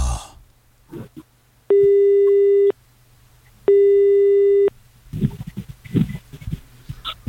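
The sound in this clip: An unanswered telephone call rings out as a ringback tone: two long, steady, even-pitched tones about a second each, separated by a silent gap, then scattered irregular noises in the last couple of seconds.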